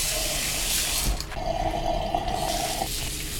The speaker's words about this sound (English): I will chop up some coriander and wash it off that way.